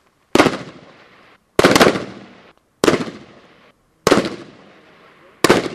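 Single rifle shots fired from a supported position during shooting training: five loud, sharp cracks at steady intervals of just over a second, each trailing off in a short decay.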